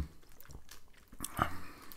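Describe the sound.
Someone chewing and biting food, with faint, irregular crunchy bites and soft mouth sounds, one slightly louder crunch near the end.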